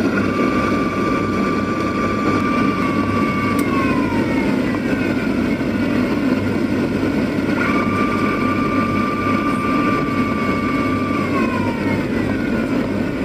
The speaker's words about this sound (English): the flaps enable the aircraft to land at a much lower landing speed. So here are the sounds you are likely to hear, once again, especially if you are closer to the middle of the aeroplane, above where the majority of the hydraulic pumps are housed.